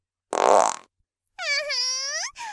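Farts from a contestant in a farting contest: a short broad blast, then a longer tonal fart with a wavering, buzzing pitch, and a brief third beginning at the end.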